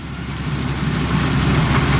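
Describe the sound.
Engine drone of a swather driving through a rice field at harvest: a steady, low rumbling hum that swells slightly louder partway through, with no voices.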